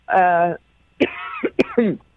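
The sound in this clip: A woman clears her throat in a short voiced rasp, followed by a few brief, choppy vocal bursts.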